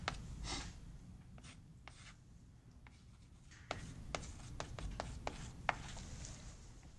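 Handwriting during a lecture on transfer functions: faint scratching strokes with a few sharper taps, no one speaking.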